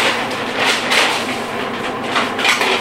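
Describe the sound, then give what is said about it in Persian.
A cooking pot is taken out in a kitchen to start a sauce for sausage bandari, making loud metallic clattering and rattling with a few sharper knocks through a continuous scraping rumble. “اول باید یه سس درست کنم. به این منظور قابلمه رو در میارم،”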